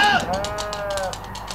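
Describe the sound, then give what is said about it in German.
Lambs bleating in a radio drama of Wilhelm Tell as a herd is attacked: a short bleat followed by a longer, wavering cry, over a pulsing background noise. “Oh, meine Lämmer!”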